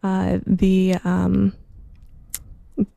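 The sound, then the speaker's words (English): Experimental ambient music built from a reel-to-reel tape loop, distorted and delayed, brings a few loud, steady tonal bursts with rich harmonics, then fades to faint hiss broken by a few sharp clicks. “the recording was first made on a reel-to-reel tape recorder and then looped back and re-recorded for this piece, and that sort of creates like a lot of the sort of like the periodicity that you're hearing”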